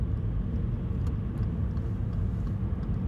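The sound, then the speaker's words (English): Steady low road rumble of a car driving on a road while changing lanes, an even engine and tire drone that holds constant throughout with no voices. “Sorry, just changing lanes. I can't do two things at once. I am doing two things at once, actually. I'm driving and talking, but like when I'm changing lanes, I need to concentrate and look.”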